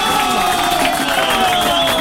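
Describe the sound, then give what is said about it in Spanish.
Audience cheering and applause form a dense, steady wash of crowd noise that stays loud and continuous for about two seconds, with no talk over it. “Si les gustó este pequeño programa de 4 a 7, ¡aplausos!”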